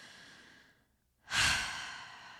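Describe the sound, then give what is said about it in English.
A single deep breath drawn in, heard alone after a brief silence as a loud, breathy rush that swells and then tapers slowly. “if you were to take a deep breath in right now”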